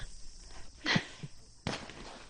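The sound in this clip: Shotgun reports in Olympic trap shooting sound as two sharp, faint cracks about three-quarters of a second apart, set against quiet background noise.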